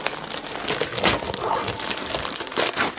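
The plastic wrapper of a collectible figure crinkles as it is unwrapped: a loud, unbroken run of crackling and rustling with irregular sharper crunches, with no talking.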